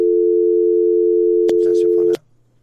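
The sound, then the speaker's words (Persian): A steady, loud telephone dial tone hums as a host calls another listener, then brief clicks and noise sound just before the tone cuts off abruptly after about two seconds. “تلفونشان قطع شد یک شماره یک شنوانده دیگر رو میگیرم”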